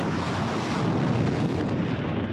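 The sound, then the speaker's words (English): Military rockets launched from Iran toward northern Israel make a continuous, loud rushing roar that stays broad and steady throughout, with no talking. “In footage released by Iran's military, rockets blast into the sky towards northern Israel.”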